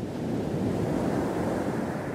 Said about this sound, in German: Massive Wellen rollen heran am Rialto Beach, einer der westlichsten Punkte der USA.